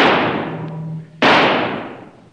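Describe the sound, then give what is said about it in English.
A gunshot fired at an antelope during a hunt in the jungle: a sudden, loud, sharp crack with a long decaying tail, following an earlier burst of noise that fades out. “Kiva just shot an antelope.”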